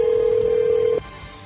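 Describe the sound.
A telephone line tone, one steady mid-pitched beep held for about a second and then cut off abruptly, leaving a faint low hiss.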